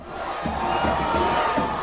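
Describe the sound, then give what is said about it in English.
Cheering New Orleans Saints fans celebrate the team's first Super Bowl win, over the Indianapolis Colts, with a dense, steady roar of shouts and whoops lasting under two seconds. “that is the sound of New Orleans fans celebrating their very first Super Bowl win.”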